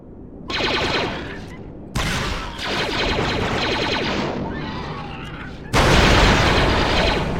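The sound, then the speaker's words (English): Sniper rifle shots in a video game, fired at bug-like enemies on a bridge: four loud blasts, each with a sharp crack and a long rumbling decay, the last the heaviest. “Wait, looks like a good place for a little sniper action. Okay, here we go. Now we can snipe.”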